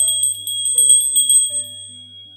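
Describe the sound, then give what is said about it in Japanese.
A small bear bell, carried as a bear deterrent outdoors, jingles with bright, high ringing tones, several quick strikes in the first half that then settle into a lingering metallic shimmer, with no voices. “一般的に思いつくのは熊鈴ですよね。私も熊鈴持ってますよ。”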